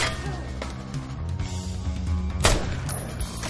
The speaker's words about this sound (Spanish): Le ha disparado a Payne en la pierna.